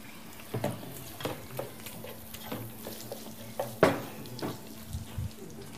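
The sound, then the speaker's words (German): Food fries in a pan with a little oil, giving a soft sizzle under several sharp clatters of a utensil stirring against the pan, one louder than the rest. “Ich tue so ein bisschen Öl rein.”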